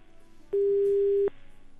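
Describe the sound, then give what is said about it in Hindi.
A steady telephone line tone sounds after a phone-in caller's call drops. It is one sustained mid-pitched tone of under a second, rising clearly above a faint background hum. “Hello, लगता है call cut हो चुका है। आप फिर से कोशिश कीजिए प्लीज़।”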